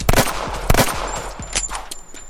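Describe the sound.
Gunshots in a shooter video game: a few sharp, punchy reports in quick succession, loud at first and then lighter and more scattered toward the end.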